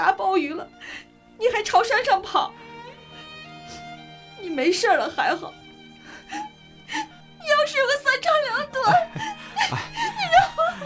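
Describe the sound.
A woman is crying hard in several loud, wavering bursts of high, trembling sobs and moans, with short quieter pauses between them.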